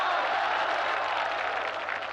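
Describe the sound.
An audience at Peking University applauds, a soft, even rustle of many hands clapping that holds steady and fades slightly near the end.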